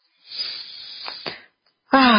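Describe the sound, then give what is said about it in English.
A deep breath taken during a guided meditation, a steady, airy rush of air lasting over a second, followed by a short silence before a voice begins speaking. “Why don't we just take a deep breath?”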